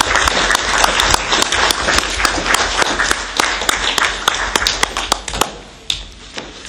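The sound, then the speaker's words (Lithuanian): Audience applause at a council meeting: many hands clap in a steady, crackling patter that thins out toward the end into a few scattered claps. “Prašom pasveikinti ir paploti.”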